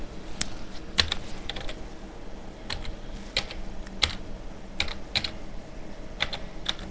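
A password is typed on a computer keyboard while signing into a legal research database. Many crisp keystrokes land at an uneven pace with short pauses between them, and no voices.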